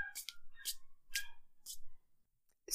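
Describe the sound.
Paper money is thrown and flicked in a show of making it rain: four quick, crisp papery swishes at an even pace, fairly faint. A short sharp sound follows at the end.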